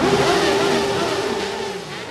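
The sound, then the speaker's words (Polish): Engines of several hundred motorcycles roar together at a funeral ceremony, forming a dense, steady droning growl with a sustained low tone that stays loud and fades only slightly toward the end. “W ceremonii pogrzebowej wzięło udział kilkuset motocyklistów, którzy przyjechali z całej Polski. Pożegnali swoich przyjaciół rykiem silników.”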